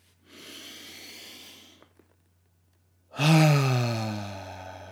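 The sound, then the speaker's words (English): A person takes a deep breath, a long airy inhale followed after a short pause by a loud, voiced sighing exhale that fades out slowly. “I'm going to take a deep breath. You're welcome to join me on this deep breath.”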